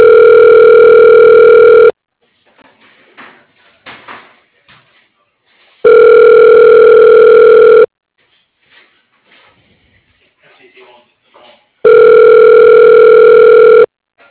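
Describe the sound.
Three long, steady telephone ringback tones, each about two seconds, repeat at an even rhythm while a call is forwarded to voicemail. Faint, scattered noises fill the quiet gaps between the rings.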